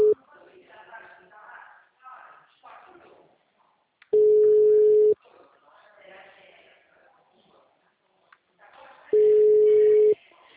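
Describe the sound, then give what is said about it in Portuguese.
A phone call rings out while someone tries to reach a person: two long, steady ring tones, separated by a few seconds of muffled voices. “Estou ligando aqui para ela. Alguém está ligando para ela?”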